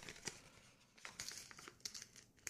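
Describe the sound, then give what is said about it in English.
A paper envelope is opened and handled with soft, continuous crinkling and rustling. Many small crackles and a few sharper crumples come through quietly and unevenly. “There's an envelope in an envelope.”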